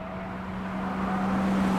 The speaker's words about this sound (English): Santos and DeMille's unmarked car swings through an intersection.